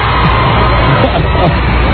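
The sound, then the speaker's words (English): Fans cheering at a race just won by Dale Earnhardt Jr.: a continuous, loud, dense crowd roar of mingled shouts that stays level throughout. “Listen to the cheering fans.”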